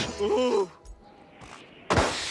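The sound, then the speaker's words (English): A car crashes into another vehicle after its windscreen is covered by snow. A short yell comes first, then a quiet pause, then a sudden loud burst of crunching, shattering noise that carries on to the end. “Homer's windscreen gets covered by snow, and he crashes into someone.”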